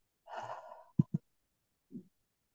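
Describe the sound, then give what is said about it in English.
A deep breath in and exhale during a guided meditation on a group call: one soft, airy breath sound, then two short quiet thumps and a faint breathy trace. “So inviting you to just take a deep breath in and exhale.”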